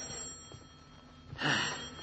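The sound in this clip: A telephone ringing in a house: one brief, faint bell burst near the end, after quiet background hiss.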